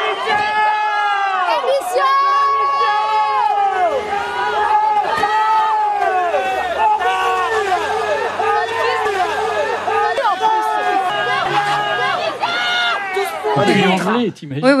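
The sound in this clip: Crowd at Le Puy-en-Velay shouting slogans at a visiting official: many loud, overlapping voices yelling and chanting without pause, with a short dip near the end.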